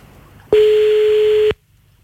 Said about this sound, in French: Bon, allez, c'est parti, on y va, on l'appelle.